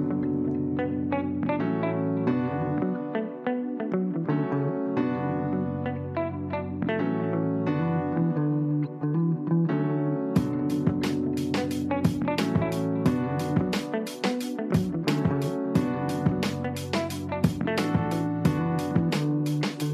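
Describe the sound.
A music beat plays alone, a steady melodic loop that runs for about ten seconds before crisp percussion with bright, rapid hi-hat ticks joins and drives the rest, with no voices.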